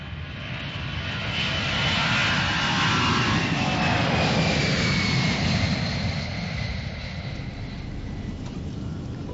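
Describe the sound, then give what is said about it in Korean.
Steady, loud jet-engine roar of an airliner cruising at about 8,500 m and 950 km/h after leaving Gimpo Airport, a broad, even rushing drone that swells slightly mid-clip and holds with no voices. “현재 우리 항공기는 김포공항을 정시에 출발하여 고도 8,500m, 시속 950km로 순항 중에 있습니다.”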